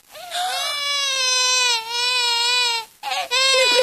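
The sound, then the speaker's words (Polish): An infant cries in the dub of an animated film: loud, high harmonic wails in two long sustained bursts, then a brief break before a third cry starts, with no talk over it. “Nie płacz, malutki. Mamusia się tobą zajmie.”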